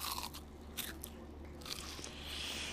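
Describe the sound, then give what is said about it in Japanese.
Crisp crunching from a bite into a large piece of tatsuta-age fried chicken with sudachi squeezed over it, flavoured with ginger. A few sharp crunches are followed by softer, faint chewing. “割とあの大ぶりの竜田揚になっておりますがえもう箸を持ったらなんかサクッという感じがしましたいただきます”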